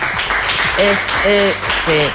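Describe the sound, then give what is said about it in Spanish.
Applause from an audience at a primary school prize-giving, a steady wash of clapping that lasts throughout while a voice speaks over it. “Bueno, le mandamos un aplauso, saludo, un aplauso, por favor, para él.”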